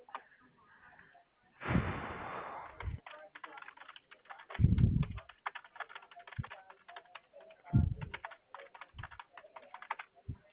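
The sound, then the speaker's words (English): Typing on a computer keyboard, with rapid, irregular clicking keystrokes that carry on throughout, broken by a few louder, denser bursts of sound. “I'm just getting your issue typed up here.”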